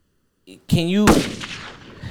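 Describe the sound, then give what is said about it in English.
A gunshot sound effect: a brief tonal swell leads straight into a single loud, sharp blast whose noisy tail fades over about a second. “That deserved a gunshot.”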